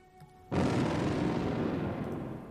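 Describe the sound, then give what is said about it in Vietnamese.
A series of explosions tears through earth, rock, snow and ice on a snowy mountain: a sudden heavy blast hits after a brief near-silence, then a dense rumbling roar carries on and slowly fades. “Những tiếng nổ liên tiếp vang lên, bao nhiêu là đất đá mang theo và cả băng tuyết lẫn vào nhau”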